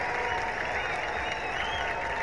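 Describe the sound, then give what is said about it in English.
Steady, dense applause from a baseball crowd for a batter who was hit by a pitch and chose to stay in the game. The clapping is continuous and even, with no talk over it. “It looks like he wants to stay in. He is going to stay in. Gets a nice round of applause.”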